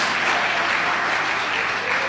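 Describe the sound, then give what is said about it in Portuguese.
A church audience applauds loudly for Jesus, with dense, continuous clapping. Individual claps blur into a steady, even roar that holds throughout. “As palmas de glória a Deus e o aleluia são bem fortes para Jesus.”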